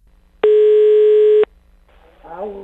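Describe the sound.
A telephone tone sounds as a call is placed: a single steady, flat, loud tone lasting about a second, then quiet line hiss, then a voice starting to speak.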